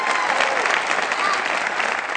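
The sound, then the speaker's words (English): Steady, dense applause from a church audience at a morning service, many hands clapping together at an even, sustained loudness without a break. “Can we just give God a hand clap of praise this morning?”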